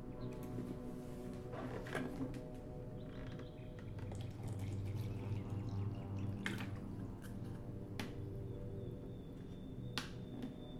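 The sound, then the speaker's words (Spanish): Water being poured, a small amount, heard as a faint trickle with scattered drips and light clicks, quiet and steady throughout. “perdonad el meneo, voy a poner un poquito de agua y vamos a hacer una pequeña pausita.”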